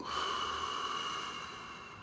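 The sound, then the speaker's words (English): Deep breathing during a guided breathing exercise: one long, airy breath that holds steady and then slowly fades, heard alone without talk. “Inhale. Exhale. Give me a couple more. In. Out.”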